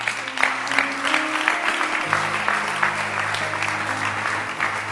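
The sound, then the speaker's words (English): Congregation applauding at a church service, a steady wash of many hands clapping at an even, sustained loudness throughout. “Thank you. Clap your hands for me.”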